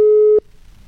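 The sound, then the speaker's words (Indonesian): Telephone ringback tone while placing a call: one steady, mid-pitched tone lasting under half a second, then cutting off to near silence. “Dan ini masih berdering”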